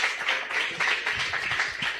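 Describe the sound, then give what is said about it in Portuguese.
A church audience claps to welcome a preacher: many hands beating at moderate loudness, with slight swells and dips in the clapping. “Receba o homem de Deus com as palmas bem alegres para Jesus.”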